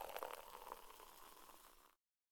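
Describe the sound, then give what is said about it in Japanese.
A drink being poured into a glass makes a faint, steady gurgling trickle that thins slightly before cutting off abruptly. “よし、それじゃあこれをお前のグラスに注いでと。”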